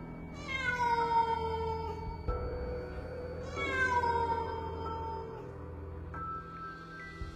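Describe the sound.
A black cat meowing: two long, drawn-out, loud cries, each sliding downward in pitch, separated by a short pause.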